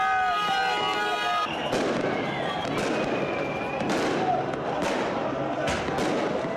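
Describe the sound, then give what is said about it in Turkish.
Fireworks explode in the streets of Cizre as hundreds celebrate a football victory: several sharp, booming bangs over a dense, continuous din of crowd noise and voices. “Dakikalarca havai fişek sesleri yankılandı.”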